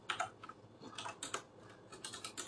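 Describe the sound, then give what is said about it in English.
One-handed typing on a computer keyboard at a cluttered desk: faint, quick key clicks in irregular bursts with short pauses between them. “typing with one hand here, I've got too much stuff on my desk”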